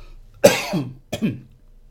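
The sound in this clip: A man coughs twice, two sharp throaty bursts, each trailing off into a short rough rasp, separated by a brief pause, with no other sound around them.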